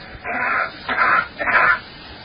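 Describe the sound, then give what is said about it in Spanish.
Three muffled, breathy coughs, made to sound the way a cough would on Mars, each about half a second long with short even gaps, dull and thin with no deep chest tone. “Vamos a repetir la tos en la Tierra y la tos en Marte. That's coughing on Mars.”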